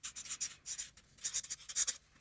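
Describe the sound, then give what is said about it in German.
Notes being written onto cards: quiet, scratchy strokes come in short bursts with brief gaps between them, several quick scribbles in a row and no voices. “Schreiben wir das auch mal wirklich auf. Also, also einmal vielleicht auch auf drei Karten.”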